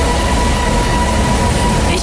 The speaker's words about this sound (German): Der Schlesi ist der quietschendste Bahnhof von ganz Berlin. Vielleicht, weil er in einer Kurve liegt.